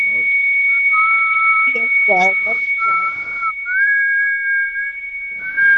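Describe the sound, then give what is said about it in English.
A whistled imitation of a dial-up internet modem connecting: a steady high sustained tone runs under a lower wavering whistle that shifts up in pitch, with short voiced bursts mixed in. “That is dial-up internet service. I can't whistle that one away.”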